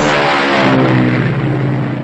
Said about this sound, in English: Here comes an unforgettable night of dirt track racing.